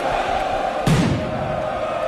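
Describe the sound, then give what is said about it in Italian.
Inter fans celebrate loudly in Piazza Duomo, Milan, a dense, noisy crowd roar that swells in a sudden loud surge a little before the midpoint, then carries on at a steady, boisterous level. “E al triplice fischio sono partiti i festeggiamenti della Milano Nerazzurra, che hanno avuto il loro epicentro in Piazza Duomo. L'inviato. La passione dei tifosi cresce col passare dei minuti, fragorosa.”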